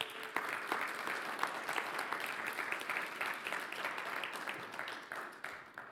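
Audience applause welcoming a guest to the stage at a Sunday church service: dense, continuous clapping with scattered sharper claps, holding steady before tapering off at the end.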